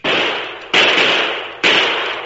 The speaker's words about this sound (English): Get down. Down on the ground. The shots! Stay here. Down.